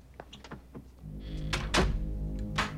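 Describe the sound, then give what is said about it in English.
A door is closed and locked: a few soft clicks, a dull thunk, then several sharp latch-like clacks, all fairly quiet and with no talking. “closes and locks the door.”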